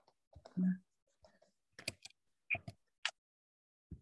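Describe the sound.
Faint typing on a computer keyboard as someone writes a note: a few sparse, soft key clicks separated by pauses, with some quiet speech.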